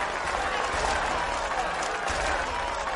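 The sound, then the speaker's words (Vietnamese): Thunderous crowd applause fills a hall during a presidential address, a dense, unbroken roar of clapping that stays level throughout. “Lại vỗ tay gian dội.”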